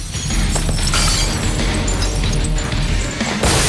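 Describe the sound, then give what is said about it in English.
Glass jars being smashed overhead and shattering, a loud, dense run of many overlapping crashes, breaks and scattering shards that continues without pause. “The bald journalist smashes as many of the jars above him as he can. The group are showered with glassy shards and hunch over, shielding their faces.”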